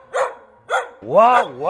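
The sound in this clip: A human voice imitates a dog barking while telling of a dog at a countryside place: two short, sharp bark-like yelps, then a longer wavering voiced howl that rises and falls in pitch, fairly loud.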